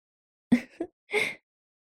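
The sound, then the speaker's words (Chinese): A woman's heavy, breathy panting: three short airy gasps, the last one slightly longer, heard alone without talk. “你竟然能听得到妈妈的喘息声”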